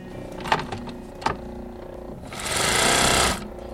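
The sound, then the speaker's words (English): Sewing machine whirring at a Bronx furrier's shop where fur coats are repaired: two sharp mechanical clicks, then a loud, steady high-pitched buzzing run lasting about a second before it stops. “Those are the sewing machines of L&M Furriers in the Bronx, the focus of this week's Niche Market, WNYC's series on specialty stores.”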